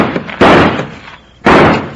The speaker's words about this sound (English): Then I can shoot this lock off. Stand back, will you, honey?